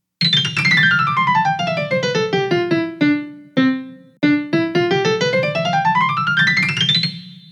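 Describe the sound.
Piano notes tracing the parabola y = x²/10: a long run of single notes that falls quickly in pitch, slows and lingers around middle C with a few separated notes, then climbs again to end high.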